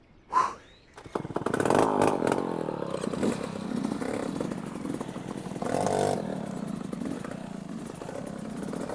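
A motorbike engine revs during a race as its rider nurses a worn tyre. A short clatter leads into a loud, rough, buzzing drone that holds steady, with a brief surge in the middle.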